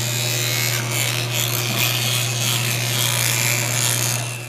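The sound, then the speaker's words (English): Electric toothbrush brushing teeth: a steady, loud motorized buzz with a low droning hum and a scrubbing, rubbing texture on top, running continuously for a few seconds before easing slightly at the end. “This is the sound of me brushing my teeth.”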